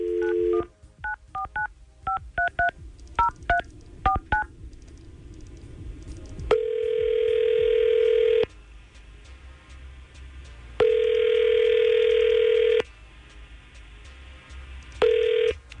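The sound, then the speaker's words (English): Keypad tones ring out in a quick, uneven series as a telephone number is dialed, then ringback tones follow: two long rings separated by pauses and the start of a third, with no talking. “So we're going to try to call Leah right now and see if we can get some answers.”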